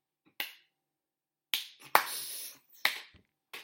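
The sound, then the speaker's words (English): Lukewarm applause from a TV show comes as a handful of isolated, sharp claps separated by stretches of silence. One clap trails into a short, faint patter before the room falls quiet again. “It's a lukewarm applause.”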